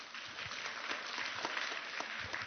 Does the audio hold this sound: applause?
yes